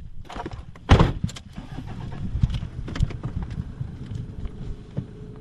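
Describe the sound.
A car driving down to a small half-acre hop field on a farm: steady engine and road rumble with wind buffeting the microphone, and one sharp knock near the start.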